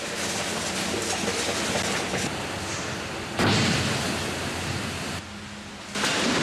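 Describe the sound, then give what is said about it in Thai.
Concrete pumped at high pressure booms through a bending pipe on a skyscraper over 600 metres tall. A heavy, steady roaring rush shifts abruptly in level, surging louder midway, dipping, then rising again at the end. “เสียงสะท้อนที่ดังกระหึ่มนี้คือเสียงที่ปูนซีเมนต์เหล่านี้ถูกปั๊มแรงดันสูงดันในบริเวณที่ท่อโค้งงอ”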